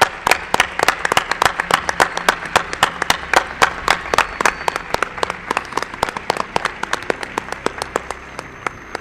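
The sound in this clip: Audience applause for a guest: steady, evenly spaced claps that sound sparse and crisp, holding a regular rhythm and thinning slightly toward the end.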